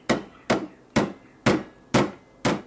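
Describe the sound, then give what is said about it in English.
Hammer blows pound a piece of steel into a bell shape: six sharp, loud metallic strikes land at an even, steady rhythm, each decaying quickly before the next. “He cleans an hourglass-shaped piece of steel, bends it in half, pounds it multiple times until it forms the shape of a bell,”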